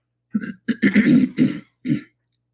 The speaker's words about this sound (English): will come along and remove all the throat clearing